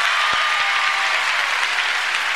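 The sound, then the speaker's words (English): A church audience claps for Jesus Christ during a praise service. Loud, continuous applause fills the whole stretch, with a couple of soft low thumps near the start. “Let's give Jesus Christ a hand clap”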